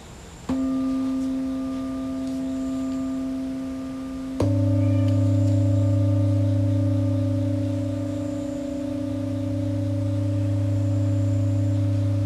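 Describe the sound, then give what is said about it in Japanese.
Resonant ringing tones from a meditation bowl, struck twice, each strike blooming into a steady, sustained hum with bright overtones. The second strike adds a deeper, louder low drone that carries on to the end without any voices. “瓶の音を浴びるように頭のてっぺんから両足の指先に向けて力を抜きます。全身で瓶の音を浴びていきます。”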